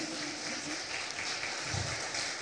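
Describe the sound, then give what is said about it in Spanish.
A church audience gives a round of applause to Jesus, heard as soft, even, rain-like clapping from many hands that continues steadily at low volume throughout. “Denle un aplauso poderoso a Jesús.”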